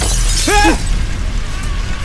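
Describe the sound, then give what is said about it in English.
Glass shattering as a bird breaks through a window, a brief bright crash with a thin tonal squeal, followed by a steady low background hum. “A bird shatters that window.”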